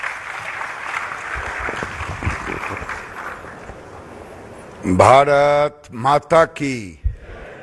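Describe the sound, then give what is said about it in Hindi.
Applause welcomes India's textile minister Giriraj Singh at a National Handloom Day event. Scattered, uneven clapping runs for about five seconds, then a loud amplified voice breaks in with short bursts of speech. “और अब मैं आमंत्रित करने जा रही हूं श्री गिरिराज सिंह जी को। माननीय वस्त्र मंत्री भारत सरकार, आपसे अनुरोध है कि भारत के हथकरघा क्षेत्र के भविष्य के लिए अपना संबोधन और दृष्टिकोण साझा करें। जोरदार तालियों से स्वागत कीजिए।”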